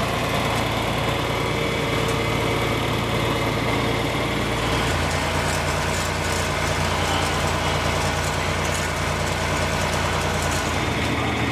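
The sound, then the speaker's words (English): A small motor runs in a steady, loud drone, sped up by pulling a knob toward the operator; its low hum shifts noticeably about midway and then continues evenly to the end. “Speed up the motor a little bit by pulling that knob, or this, down towards you.”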